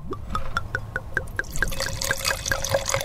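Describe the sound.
A 2017 Cabernet Sauvignon red wine is poured in a quick series of rhythmic glugging gurgles that gradually blend into a trickling splash. The pour is moderately loud, and no one speaks over it.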